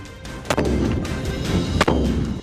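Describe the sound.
Live-fire gunshots ring out during shooting practice at a border post: two sharp, loud cracks spaced more than a second apart over a constant low rumble.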